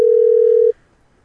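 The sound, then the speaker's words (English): A phone rings out on an outgoing Google Voice call, heard as one loud, steady, mid-pitched electronic tone under a second long that cuts off abruptly into near silence. “Just drunk dialing people now. I mean, it's coming from a Skype, so it's a weird number. No, it's Google Voice. It'll be my number.”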